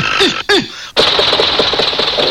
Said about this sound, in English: stand in front of machine, seize, crank, spin crank sharply